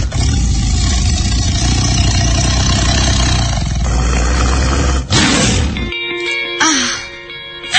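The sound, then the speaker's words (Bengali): A loud, rough roar in the style of a big cat holds steady for about five seconds, then breaks off. A shorter burst follows, and tonal, music-like sounds come in near the end. “So সেই গর্জে ওঠার গর্জনটি আরো একবার শুনতে চাই আমরা।”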